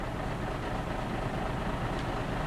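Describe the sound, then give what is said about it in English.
Steady engine rumble of a bus, a continuous loud low drone that holds even throughout with no clear rise or fall. “Ihm gefällt der Bus wohl nicht. Sam, Kay doesn't like the bus.”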